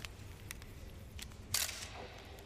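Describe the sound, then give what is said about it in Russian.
A camera takes a photograph in a cave with a few faint, sharp shutter clicks. The loudest click comes in the middle, over quiet background noise, with no voices. “Нина включает фотоаппарат и фотографирует.”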